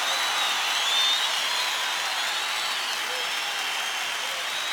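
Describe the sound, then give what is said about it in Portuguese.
A church audience claps together in dense, steady applause that stays even in loudness from start to finish. “Aplaudam mais forte, porque Ele é digno.”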